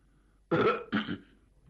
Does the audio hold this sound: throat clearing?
yes